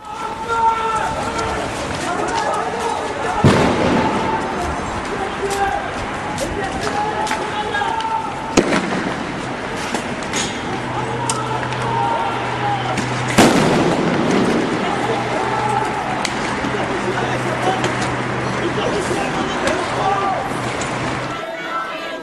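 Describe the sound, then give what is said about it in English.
Sound grenades bursting as security forces attack anti-regime protesters gathered outside a detained opposition leader's house in a village near Manama, Bahrain: three sharp, loud blasts spaced several seconds apart over constant crowd noise and voices. “Regime forces attacked them with tear gas and sound grenades.”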